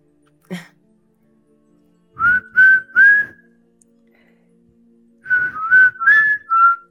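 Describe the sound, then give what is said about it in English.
A person whistling short, rising notes against near silence: first a quick run of three clear whistles, then after a pause a longer run of several more, with a single soft knock before the first whistles. “But I'll try whistling again. It's a fun word. Whistle again, but like three times.”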